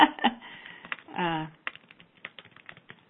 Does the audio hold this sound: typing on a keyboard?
yes